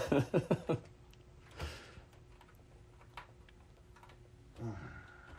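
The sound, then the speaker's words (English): Screws driven stiffly into the front of an Apple IIc case: a quick run of sharp clicks and creaks, then sparse, quiet ticks and a soft scrape. “I'm screwing in the front. It does not feel like it's going in very happily or smooth.”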